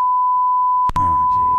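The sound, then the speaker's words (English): Censor beep bleeping out an address: one steady, high sine-tone bleep that runs the whole time, with a person's voice starting partway through beneath it. “Like his address get beeped out.”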